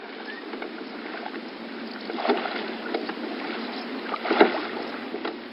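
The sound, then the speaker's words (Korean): Paddling and soft water splashing as a raft made of gathered branches crosses a lake: a continuous gentle wash of water with a few stronger splashes standing out, and no voices. “뗏목을 타고 호수를 건너가기 시작했어요.”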